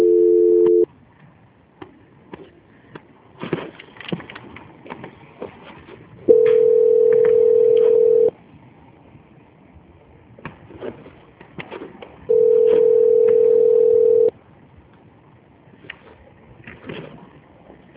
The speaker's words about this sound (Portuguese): Aguarde na linha que o senhor já vai ser atendido pela a central de auditoria, tá? Ok. Transferência.